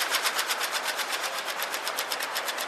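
Letters on a departure board in a huge old railway station flutter as the information changes, making a rapid, even stream of many crisp, clattering clicks that runs steadily on its own.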